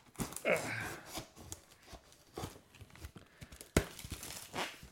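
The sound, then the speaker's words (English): Packing tape is ripped off a package of Nintendo Switch accessories: several harsh tearing rips and crinkling crackles, with people talking over and between them. “They really got to try to conserve some tape, these people.”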